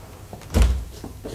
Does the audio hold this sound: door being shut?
yes